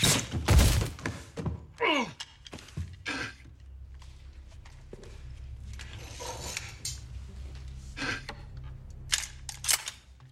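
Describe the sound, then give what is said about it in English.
A single sharp shot-like thunk strikes loudly near the start, followed by quieter thuds and scattered voice sounds. “You shot me.”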